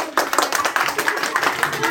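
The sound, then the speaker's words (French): A group applauds itself at the close of a session with experts: quick, crisp claps pile up in an uneven patter while voices talk over them. “Je crois qu'on peut s'applaudir. Allez, on s'applaudit tous.”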